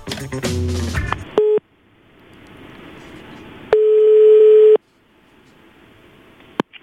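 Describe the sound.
Telephone dialing and ring-back tones: a quick burst of dial tones, a short steady tone, a pause, then one long steady ringing tone lasting about a second, ending with a faint click.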